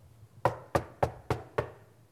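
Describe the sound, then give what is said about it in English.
Five evenly spaced knocks on a door, each a firm, hollow rap with a quick decay, steady in rhythm and standing alone against a quiet background. “And he knocks on the door.”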